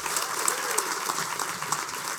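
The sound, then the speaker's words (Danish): Audience applause at a live comedy show at Comedy Zoo in Aarhus as a comedian is welcomed on stage: dense, steady clapping that holds at an even level throughout. “Giv en kæmpe stor hånd til Lasse Remmer. Giv ham en hånd.”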